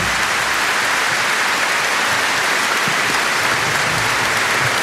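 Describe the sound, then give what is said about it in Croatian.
Audience applause for a tamburica orchestra at a concert: dense, steady clapping that stays loud and even throughout, with no pauses. “Ja vas molim još jedan veliki pljesak za Tamburaški orkestar Hrvatske radio televizije.”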